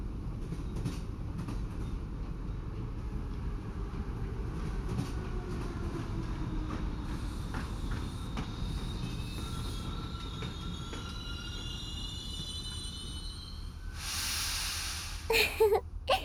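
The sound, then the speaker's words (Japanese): Train pulling into a station at night in snow, with a steady low rumble of wheels on rails throughout. Thin, high wheel squeals rise above it partway through, and a few sharp clanks sound near the end. “さて、そろそろ本日最後の駅に到着いたします。”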